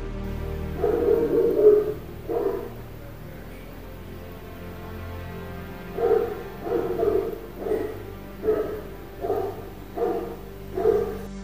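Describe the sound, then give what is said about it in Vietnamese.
A dog barks loudly nearby: a short run of barks, a pause, then a longer series of evenly spaced, mid-pitched barks. “Thình lình, có tiếng chó sủa rất to vang lên ngay gần đó.”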